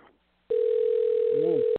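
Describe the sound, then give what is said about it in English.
A telephone line tone sounds while a man's phone number is called: one steady mid-pitched tone holds for just over a second, and a brief voice speaks over its end. “Let's see if we can leave a message for him. I want to keep calling all of his phone numbers”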